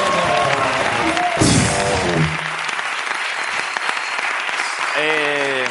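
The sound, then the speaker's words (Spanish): Audience applause at a live show breaks out as a loud, dense wash of clapping that runs steadily throughout, with a voice speaking over the start and a few tonal musical sounds near the beginning and end. “Ricardo Castella, un aplauso para él, que vuelve.”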